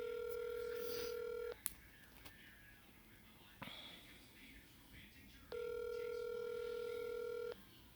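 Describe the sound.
Telephone ringback on an outgoing call, two long, even ringing tones about two seconds each, separated by a quieter gap with a few faint clicks and rustles.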